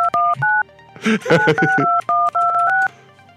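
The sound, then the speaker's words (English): Touch-tone keypad beeps as a telephone number is dialed from a phone: a brisk series of short, steady dual tones, clearly separated, interrupted midway by a brief noisy burst. “You're calling from Bonnie's phone.”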